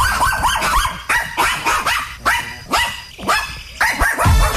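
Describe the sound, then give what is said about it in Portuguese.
Dogs bark as a radio sound effect: many loud, sharp barks in a fast, uneven rhythm, with a few higher yips mixed in. “Solta os cachorros.”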